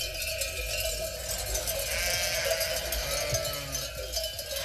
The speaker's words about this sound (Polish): owce się pasą w systemie wolnym, mają tylko koszar nocny, owce się doi